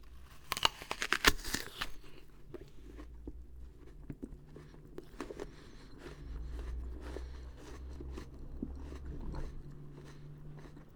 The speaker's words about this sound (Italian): oppure se sussurra e poi mangia, per esempio, una mela.